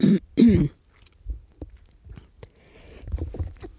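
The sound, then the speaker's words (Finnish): Throat clearing: two short, loud, rasping bursts come one after another at the start. They are followed by quieter soft clicks and faint rustling, with no speech. “Selvitän tähän kurkkua”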